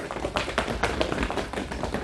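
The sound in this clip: A door is being broken in, heard as a fast run of loud knocks and thuds. The blows are closely spaced and irregular and continue throughout, with no voices.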